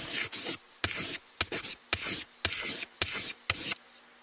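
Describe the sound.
Pen scratching across paper as someone writes. Quick bursts of scratchy strokes come in an irregular rhythm with short pauses between them, fairly crisp and heard alone.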